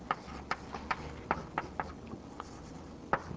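Someone writes a formula during a mathematics lecture, a faint, quick series of about ten sharp taps and strokes at irregular intervals.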